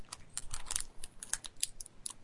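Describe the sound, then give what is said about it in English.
Typing on a computer keyboard: a rapid, irregular run of light clicks and taps fills about two seconds. It is fairly faint, with no voices. “I'm gonna type to him.”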